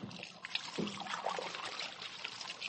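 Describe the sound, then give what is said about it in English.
Running water pours and trickles as hands are washed, a steady, faint splashing stream with small irregular splashes throughout and no talk. “Okay, kids, I'll wash my hands and be right with you.”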